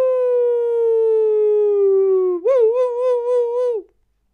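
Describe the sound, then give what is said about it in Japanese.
A voice imitates an ambulance siren fading away, holding a long steady wail that slowly sinks in pitch, then breaking into a wavering warble before stopping. “だんだんその泣き声が遠くなってくる。あの救急車のさ遠くなってくるやつやるんだ。”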